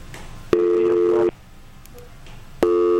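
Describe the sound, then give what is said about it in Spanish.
Telephone busy signal after a dropped call: a steady electronic tone in long beeps separated by a silent gap, one full beep and the start of the next. “Parece que se nos cayó la llamada.”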